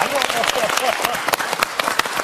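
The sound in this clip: Audience applause for a musical saw player, a steady patter of many hands with a voice heard over the clapping throughout.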